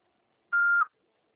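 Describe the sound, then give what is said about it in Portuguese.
An answering machine sounds its beep: a single short, steady, mid-high tone lasting about a third of a second, alone in near silence. “Após o sinal, fale seu nome e deixe seu recado.”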